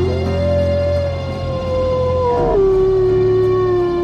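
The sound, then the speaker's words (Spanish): Wolves howling at dawn, long sustained tonal howls that drift slowly lower in pitch, with voices briefly overlapping midway before one steady howl carries on to the end. “Un coro de lobos aulladores saludó al alba.”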